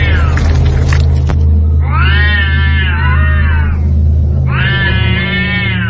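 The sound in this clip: Cats fighting over fish let out two long, drawn-out yowls with wavering pitch, loud against a steady low rumble, with quieter rough noises before the first cry.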